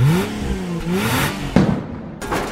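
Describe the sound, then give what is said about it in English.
A drag racing car engine revs in short bursts, its tone sliding up and down. A sharp clattering knock follows midway, then more whirring engine noise. “Strap on your high heels and put on your pads because we're going drag racing.”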